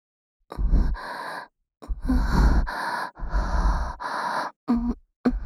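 Sniffing from a person smelling someone's armpit sweat: a few long, noisy, breathy inhalations in a row, separated by short pauses, with no talking.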